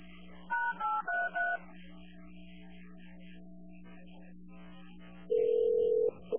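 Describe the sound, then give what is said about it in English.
Telephone keypad tones as a 911 call is transferred to another dispatch center: a few short dialing beeps in quick succession, a long stretch of quiet line hum, then one sustained higher tone near the end. “Okay, I'm going to transfer you to Baltimore City, okay?”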